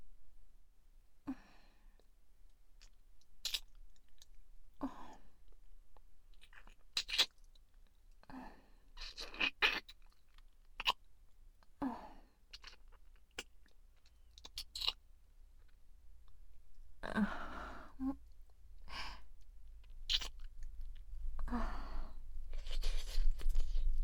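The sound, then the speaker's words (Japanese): Wet mouth-licking sounds as someone licks a face: sporadic clicky smacks and slurps separated by quiet gaps, growing louder and more frequent toward the end. “それではお顔舐めさせていただきますね。”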